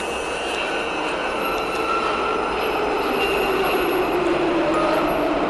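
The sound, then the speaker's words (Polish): A train on a rail line gives a steady, loud rumble with broad hiss and faint high metallic tones. The sound holds at an even level throughout, and no one speaks. “Już? Na pociąg, kierunek Kłębarte.”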